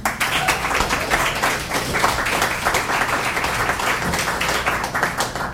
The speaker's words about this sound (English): Give Joseph another hand and bring up Jane McDonald.